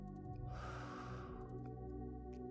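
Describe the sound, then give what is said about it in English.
A single slow, deep exhale during a guided breathing exercise, soft and breathy, lasting under a second over a faint, steady low hum. “Deep breath in. And deep breath out.”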